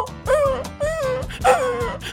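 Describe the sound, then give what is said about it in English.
A human voice imitates a big dog and a little dog barking, producing several voiced, bark-like yelps and woofs with sliding pitch in a quick, uneven rhythm. “And then big dog go, and little dog go,”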